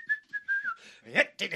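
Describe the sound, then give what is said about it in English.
A high-pitched whistle, part of a live performance of a made-up wartime-style song, comes as a few short steady notes and then a longer tone that dips slightly, followed by brief noisy bursts. “We'd have that high-pitched whistle.”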